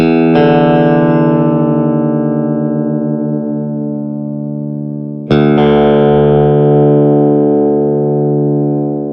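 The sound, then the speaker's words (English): Electric guitar low E and open D strings struck together during tuning, sounding twice: each loud, sustained chord rings out and slowly decays over several seconds before the second strike. “play the top thick E string and the D string together, then tune the top thick E string down until it sounds the same as the open D string.”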